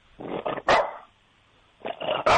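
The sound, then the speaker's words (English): A dog barks a few times in short, sharp bursts, with a pause of silence in the middle. No one talks over the barks. “That's a good bark.”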